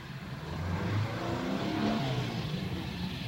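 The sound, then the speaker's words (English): A car engine rumbles low and steady as the car is pulled to a halt in a compound. The sound is faint and continuous, with no voices. “Claire Chambers pulls a car to a halt in the compound”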